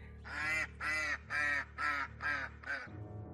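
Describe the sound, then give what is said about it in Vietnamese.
Six harsh, nasal honking cries from a white duck whose throat has been cut, standing bleeding on the rim of a well, come in an even rhythm, the last one shorter, over a low steady hum. “con vịt cứ đứng trên thành giếng rồi hướng cái mỏ vẫn còn dây máu về phía bà Hoài đang đứng chỉ đạo mọi người kêu lên những tiếng lạ lùng”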